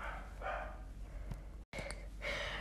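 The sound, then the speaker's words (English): A household dog barking in the background: a couple of faint, muffled barks over a low hiss, with no talk. “I realized that you could hear our dog barking in the background.”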